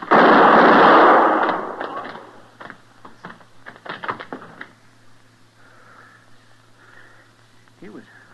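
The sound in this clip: A single loud gunshot rings out in a radio western drama, a sharp broad blast opening the scene and decaying over about a second, followed by men talking over a low steady hum.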